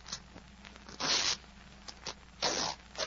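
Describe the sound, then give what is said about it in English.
Fabric ripping as the lining of a jacket's breast pocket is cut open, two longer rasping tears separated by a pause, with small ticks and scrapes between them. “Well, cut it. Cut the lining.”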